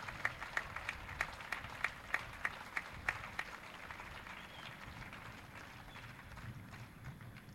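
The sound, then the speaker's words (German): Faint audience applause after a political speech on democracy and trade unions, opening with evenly spaced rhythmic claps that soon dissolve into a soft, steady wash. “Das ist Demokratie. Applaus”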